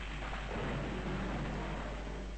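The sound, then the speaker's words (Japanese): Thunder from lightning striking nearby comes through as a faint, steady low rumble with a rain-like hiss, unbroken throughout and with no voices. “途端近くへ雷が落ちた。”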